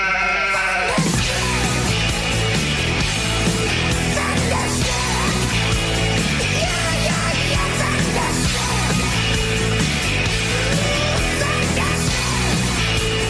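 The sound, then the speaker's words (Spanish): Many overlapping bleats from a flock of sheep form a loud, continuous wall of sound that runs the whole length, dense and unbroken, without any clear pauses. “Las ovejas se están rebelando. No me digas. Dios mío. Aquí hay algo. El rebaño está a punto de llegar.”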